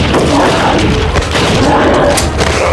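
Gunfire in an audio drama shootout, with a Lama pistol among the guns, makes loud, dense booming blasts that run together with no clear gaps.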